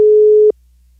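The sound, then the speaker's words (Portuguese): A telephone line ringing during a call: one steady, mid-pitched ringing tone lasting about half a second, then cutting off sharply to near silence. “Tá chamando, hein?”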